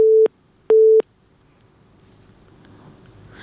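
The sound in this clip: A telephone busy signal from a failed call-in connection sounds as two loud, steady, mid-pitched beeps separated by a short gap, followed by faint hiss.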